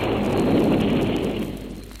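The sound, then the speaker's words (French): Artillery fire from a revolutionary army, heard as a dense, continuous low roar that stays loud and steady, then eases slightly toward the end, with no voices. “Artillerie de l'armée révolutionnaire.”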